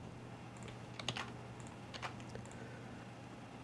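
Bursts of clicking keys from typing on a computer keyboard while entering a password during a software sign-in demo: a few quick clusters of light taps over a low steady hum, with no talk.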